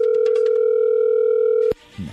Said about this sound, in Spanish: A ver, no haga ruido, ahí se está marcando.